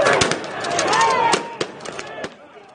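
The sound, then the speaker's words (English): Pepper-ball launchers and flashbang grenades going off at a protest: many sharp, cracking bangs at an irregular pace over a dense, noisy background with some voices. “They're shooting pepper balls at us. They've thrown out tear gas, flashbangs.”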